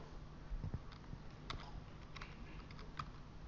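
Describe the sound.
Keys pressed on a computer keyboard give a few faint, scattered clicks over a low steady hum.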